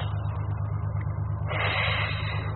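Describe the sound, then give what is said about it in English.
A car engine running, a steady low rumble that swells into a louder, noisier roar about halfway through. “Keep your motor running, that's it.”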